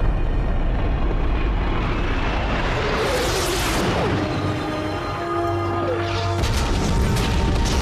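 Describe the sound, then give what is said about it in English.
Missiles fired from an American A-10 aircraft explode on a snowy mountain at night. Heavy rumbling booms sit over a constant roar, and a swelling rushing blast builds midway before the din settles and surges again. “Missiles from an American A-10 explode all around them, piercing the darkness with orange flame.”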